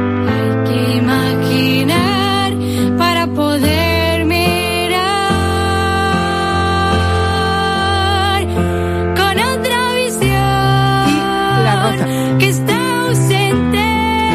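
A song composed by a girl blind from birth, entered in a Eurovision contest for blind performers, plays loud and full, with held tones and a gliding melodic line over a steady harmonic backing.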